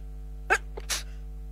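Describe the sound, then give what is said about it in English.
A person's single sneeze in two parts: a short sharp burst, then a louder, longer hissing blast, with no talking. “I could tell I was going to sneeze. Please excuse me. I don't know how you legislate for that when you're on the air, so please excuse that sneeze.”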